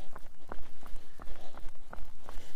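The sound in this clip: Footsteps of a slow warm-up trot before a jog, with steady, evenly paced soft thuds repeating many times over a constant background rush.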